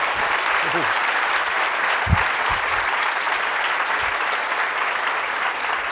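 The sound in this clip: Audience applause welcoming an author at the Edinburgh Book Festival: dense, steady clapping from a large crowd, loud and sustained for the whole stretch without letting up.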